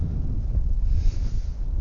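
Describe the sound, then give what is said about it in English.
Wind blows outdoors on a bitterly cold, freezing day as a continuous low rumbling buffet against the microphone, steady and unbroken throughout. “I don't hope the wind is too harsh here. It's actually bitterly cold, and I'm probably gonna creep back into my car now because it's extremely cold out here.”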